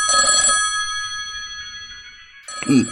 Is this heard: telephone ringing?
yes